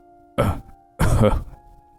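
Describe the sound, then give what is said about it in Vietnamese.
A man has a coughing fit: two harsh bursts, the second longer, then a faint steady hum. “Ông ta ho lên một trận rồi ôm ngực mình.”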